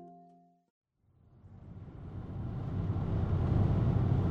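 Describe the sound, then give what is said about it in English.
A short tonal chime gives way to a brief silence, then the low rumble of a little sedan driving on an interstate highway north of Sheridan toward the Montana border swells up steadily into loud, continuous road and engine noise. “Donovan and I drive in his little sedan north of Sheridan towards the Montana border. He takes an exit off the interstate and follows the highway headed straight towards the Bighorn Mountains.”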